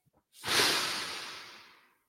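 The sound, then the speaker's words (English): A person takes a single deep breath in, an airy, breathy rush of air that swells quickly and then slowly tapers off over about a second and a half. “I'm going to take a deep breath in”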